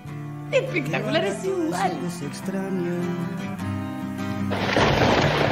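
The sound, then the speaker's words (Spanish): Rain falls as a dense, loud hiss that surges in near the end, after a stretch of wavering voice-like tones over a steady low hum. “Llueve, amigos.”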